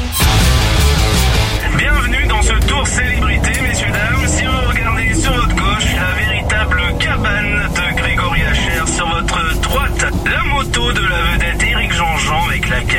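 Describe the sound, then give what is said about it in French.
A car's engine drones steadily with road rumble as a chauffeur drives through winding bends, a sound effect for a French radio advert, under continuous talk. “Oh Francis, dis au chauffeur de ralentir dans les virages, j'ai trop la nausée.”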